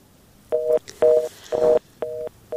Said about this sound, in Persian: خب به هر حال تماسم قطع شد